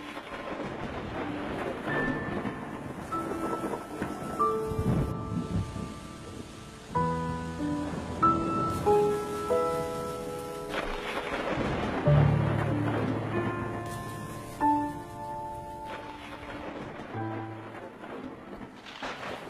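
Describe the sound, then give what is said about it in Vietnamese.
Steady rain from a thunderstorm with low rumbling thunder, heard under soft melodic music notes that ring out and hold across the whole stretch. “Ở ngoài kia, mưa gió sấm sét vẫn cứ buông răng răng.”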